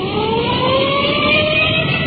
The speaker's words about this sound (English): We've put in our siren, rolling code 3.